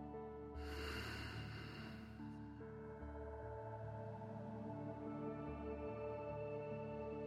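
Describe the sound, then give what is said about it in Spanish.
A slow breath in and out during a guided meditation, a soft breathy rush rising and falling over gentle sustained background music that carries on quietly afterward. “Inhala. Exhala.”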